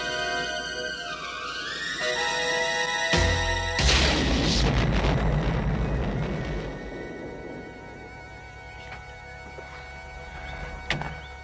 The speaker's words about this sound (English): bazooka, Rowdy? It's the only gun I can hit a moving target with.